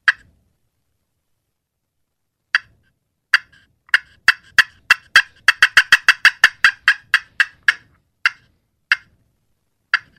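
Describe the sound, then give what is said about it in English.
A hen turkey's fly-down cackle imitated on a turkey call: many sharp, clucking notes that begin sparse, quicken into a rapid run, then slow and space out again before trailing off. The call is heard alone. “it's that hen setting up for that fly down cackle. So that would be one call that would be very elaborate in a contest”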